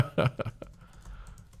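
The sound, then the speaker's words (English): Keyboard typing as someone enters a name on a computer: a few quick, fairly faint keystrokes clustered near the start, trailing off into softer, scattered ticking. “Oh, no. I typed Beyong.”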